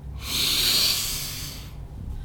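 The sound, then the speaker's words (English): A person takes one long, deep breath in as part of a relaxation exercise, a steady airy hiss that swells quickly, holds for over a second, then tapers off into quiet. “And breathe out. And take one more deep breath in.”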